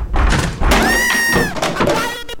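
Someone tries to break a door, producing a loud, dull thunk of an impact against it that lingers heavily before tailing off.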